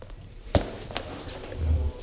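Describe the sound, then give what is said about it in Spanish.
Footsteps of a football coach arriving at a press room after a defeat: a few distinct steps stand out over a low background murmur, followed by a short low rumble near the end. “¿Qué viene corriendo o qué? Unos pasos y todo.”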